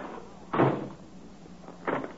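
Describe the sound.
A door shutting as someone steps outside to test a newly installed lock, heard as two muffled thuds about a second and a half apart, the first one louder, over a low steady hiss.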